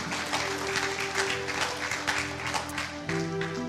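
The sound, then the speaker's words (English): A church audience claps as loudly as it can, producing a dense, steady wash of applause. Sustained musical tones ring underneath the clapping and shift partway through. “That clap as loud as you can.”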